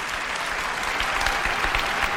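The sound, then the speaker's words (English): An audience at a product launch cheers and applauds, a dense, steady wash of clapping and crowd noise that holds at one level throughout. “That's the cheering.”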